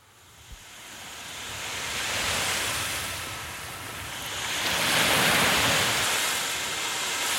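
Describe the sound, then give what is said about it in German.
Sea waves washing ashore make a broad, steady roar of surf that swells twice, with a wind-like hiss over it and no voices. “Hey, hört ihr das? Was? Na, das. Das Meer.”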